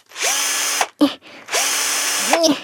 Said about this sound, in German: Ich schraube mal kurz die Sessel wieder ab.